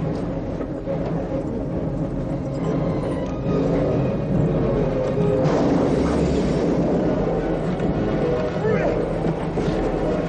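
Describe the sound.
Rumbling roar of a train approaching a bus stuck in its path, a dense, continuous low clatter and whir that grows slightly louder partway through.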